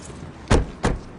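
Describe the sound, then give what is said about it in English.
Two short, solid thumps from a car's front passenger door being opened and then shut, spaced about a third of a second apart over a faint, steady background hiss, with no voices. “The blonde opens the front passenger door for the troubled woman, then climbs behind the steering wheel.”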